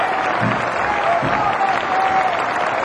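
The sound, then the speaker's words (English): Audience applause for a band being introduced on stage: dense, steady clapping that stays loud and unbroken throughout. “Applause.”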